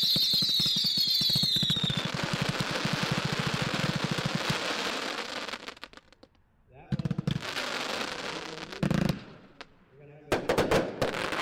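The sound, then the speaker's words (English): A fireworks cake fires a fast finale of crackling mines and multicolored comets. A dense, loud rush of rapid shots and crackle gives way to quieter scattered pops and a few sharp bursts. “So it's a fast speed crackling mines to multicolored comets finale with crackling mines.”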